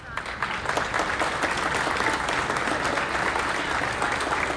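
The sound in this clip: Steady applause follows a speech at an official event announcing pension increases. Many hands clap in a dense, continuous wash that holds level from start to finish.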